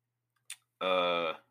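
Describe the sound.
A computer mouse clicks once, a single soft, crisp tick in near silence, followed a moment later by a short burst of a speaking voice.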